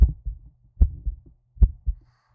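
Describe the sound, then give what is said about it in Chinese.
A heartbeat thumps in a slow, steady rhythm: three deep double beats, each a loud low thud followed quickly by a softer second one, with silence between them. “躺在我的怀里听我的心跳声吗？我的心跳在告诉你我爱你”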